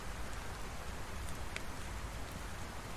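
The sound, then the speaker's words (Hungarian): Rain falls steadily as a faint, even hiss of drops on surfaces, with no voices and no breaks. “Már mondjuk nem úgy néz ki ez az eső, mint ami nagyon el akarna állni”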